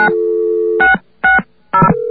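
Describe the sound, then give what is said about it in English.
Telephone dial tone from an exchange line: a loud, steady two-note hum, then three short touch-tone digit beeps, and finally a new steady tone. “Okay, so we got a second dial tone by dialing 660, and it's waiting for us to dial something else.”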